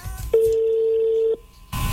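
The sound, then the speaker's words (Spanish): A steady, mid-pitched telephone tone holds for about one second while a call is placed to wish someone a happy birthday. Brief line noise comes before and after it. “A ver, estamos por acá marcando.”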